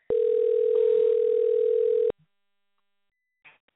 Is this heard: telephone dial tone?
yes

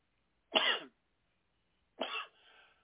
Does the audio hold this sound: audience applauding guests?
no

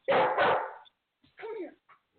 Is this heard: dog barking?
yes

